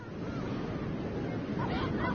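Ocean waves washing onto the beach at Hooper Bay on a brisk sunny day, a continuous broad rushing surf mixed with wind noise, loud and unbroken from start to end.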